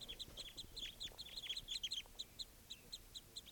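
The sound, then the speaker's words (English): A flock of small birds arrives with a quick series of high, sharp chirps that bunch together in the first half and then thin out into sparser calls, faint above a low rumbling background. “Recording something scared off the flock. Sounds like another flock coming in.”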